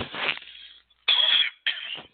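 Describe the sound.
Throat clearing, three rough, breathy bursts of moderate loudness separated by short silences, with no talk around them.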